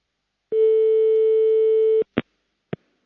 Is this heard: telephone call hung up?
yes